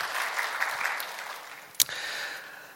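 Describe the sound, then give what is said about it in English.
Applause from an audience at Loma Linda Church during a birthday welcome: a broad, even patter of clapping that gradually thins and fades, broken by one sharp pop partway through. “So let's give them a hand. We welcome you.”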